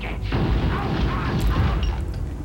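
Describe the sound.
Weapon fire and booms in a film scene, a dense, continuous barrage of blasts with a heavy low rumble, loud and steady throughout without clear gaps.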